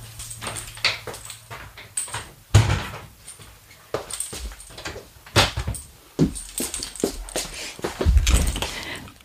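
A door being closed in a studio building in Bern, heard as several dull thuds and knocks with scattered rustling between them.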